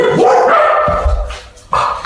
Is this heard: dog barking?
yes